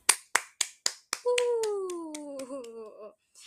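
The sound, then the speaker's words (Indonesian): Five sharp claps or snaps in an even rhythm open, then a drawn-out voice takes over, sliding gradually downward in pitch. “Give the applause dulu dong.”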